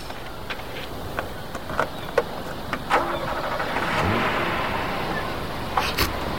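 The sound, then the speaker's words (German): A car starts and drives away, its steady engine rumble swelling briefly around the middle, with a few sharp clicks scattered over the noise. “Todd und Toby fahren weg.”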